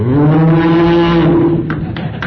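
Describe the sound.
A human voice imitates a cow mooing: one long, low, steady lowing call held for over a second, followed by a few faint soft ticks.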